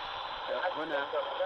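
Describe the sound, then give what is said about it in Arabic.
Radio jamming interference on a broadcast station, recorded by a listener in Yemen: a continuous, moderately loud band of hiss overlaid with warbling, garbled tones that waver without pause for the whole stretch. “إذن هي ترسل لنا مقطع من التشويش الحاصل على إذاعتنا”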